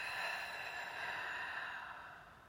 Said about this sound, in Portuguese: Inspira o ar pelo nariz. Expande o peito, solta lentamente o ar pela boca.